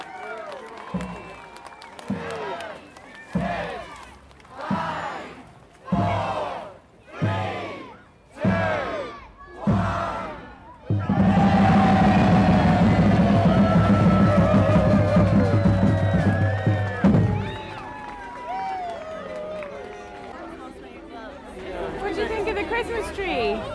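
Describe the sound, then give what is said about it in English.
Crowd at the 2021 Christmas lights switch-on in Portobello chants in a run of loud rhythmic shouts, then bursts into sustained cheering and applause before easing into lively chatter. “Welcome to some sounds capturing the switching on of the Christmas lights in Portobello 2021.”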